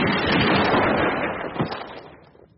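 A loud, sustained burst of firearm noise from a firing squad's rifle volley holds steady for over a second, then fades with one sharper crack partway through.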